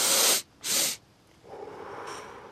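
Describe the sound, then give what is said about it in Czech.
Breathing exercise through a congested nose: two quick, loud, hissing sniffs in a row, then after a brief pause a slower, softer and longer exhale that fades gently away. “se na dvakrát nadechnete nosem a potom pomalu vydechujete. A tohle to několikrát opakujete. Zkusím to ukázat, i když mám celkem plný nos”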